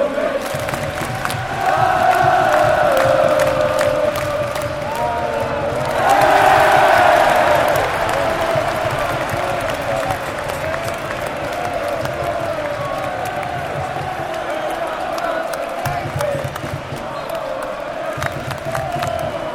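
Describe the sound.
Football fans at Wembley, including Watford supporters, roar at the start of the second period of extra time. A loud, continuous wall of cheering and shouting swells early on, then settles into a sustained rumble.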